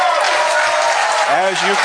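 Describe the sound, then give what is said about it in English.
Dense, continuous applause and cheering from a live audience at a political conference, with a voice starting to speak over it near the end. “As you can tell, a very live audience, geared up and ready to go”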